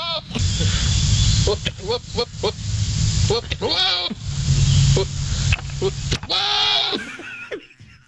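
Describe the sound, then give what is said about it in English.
Goats make mating noises: loud, wavering bleats and throaty, honking cries come in quick succession, some quavering up and down in pitch, over a rough, breathy grunting. “goat mating noises have gone to the top in taking out turtle mating noises. I think so. On my personal scoreboard, that's where it stands right now. I don't think you can beat this.”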